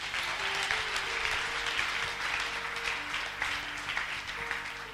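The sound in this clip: A church audience applauds to praise God, a dense and steady clapping that holds at an even level throughout.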